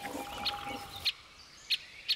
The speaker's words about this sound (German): Auch die Buntspechtküken sitzen in ihrer Höhle fest. Sie können noch nicht fliegen, dafür aber umso ausdauernder nach Futter betteln.